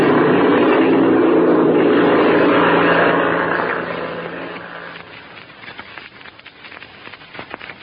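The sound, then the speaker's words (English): An airplane's engine roars as it taxis and takes off to the north, a loud, steady drone for several seconds that then drops in loudness to an uneven, rattling hum. “We're going to taxi out of ways, Chuck, and then take off to the north. All clear, Chuck? All clear, Red. We're off.”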